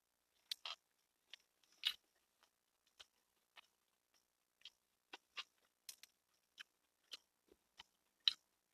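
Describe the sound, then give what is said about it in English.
Someone bites into a Burger King Impossible Whopper with onions and sliced tomatoes, then chews. Many faint, crisp crunching clicks come in an irregular rhythm against near silence, with no talking. “So here's the first bite of the Burger King Impossible Whopper.”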